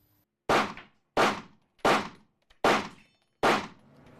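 Five sharp pistol shots from service handguns during live-fire training for prison officers at a shooting range, each a loud crack with a short decay, evenly spaced and steady in rhythm, with no talk.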